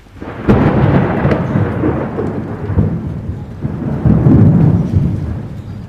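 Thunder rumbles through a storm, opening with a sharp, loud crack and rolling on in long, heavy waves of deep noise over a steady hiss of falling rain.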